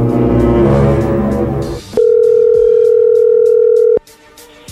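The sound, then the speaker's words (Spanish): A single steady electronic telephone tone for an incoming call sounds for about two seconds, cutting in sharply after a louder passage and stopping abruptly. “ahí entró la llamada.”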